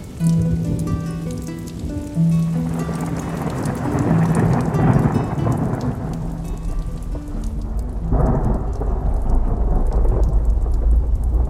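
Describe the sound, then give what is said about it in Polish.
Thunderstorm over a vineyard in hilly countryside: heavy rain hisses steadily throughout while deep thunder rolls and rumbles, swelling louder in the second half, with a faint steady tone underneath at the start. “Ale burza nam się rozpętała.”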